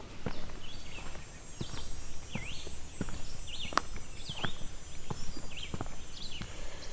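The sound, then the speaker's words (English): Footsteps of someone walking outdoors: soft, distinct steps fall at a steady walking pace over a constant low background hiss, with no talking. “That will go into the background. Which you can probably hear me walking, but it's not so overwhelming right now.”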